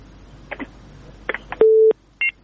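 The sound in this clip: Telephone tones after a caller's line is cut off during a listener call-in program: a few short electronic blips, then a steady mid-pitched beep and a shorter, higher tone.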